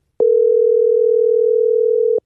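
A steady electronic telephone tone on an outgoing call, sounding as one sustained mid-pitched beep of about two seconds, loud and alone, with no talk.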